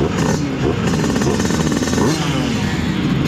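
A Simson S51 two-stroke moped engine runs with a loud, buzzy, rapidly pulsing note that holds steady throughout, a bright rattling drone with no pauses.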